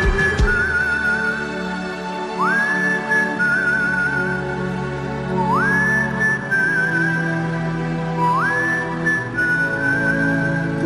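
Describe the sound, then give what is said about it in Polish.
Whistling over a backing of music: three whistled notes, each sliding upward and then held steady with a slight waver, spaced evenly at a moderate pace. “No i tak jak powiedziałem, gwizdanie.”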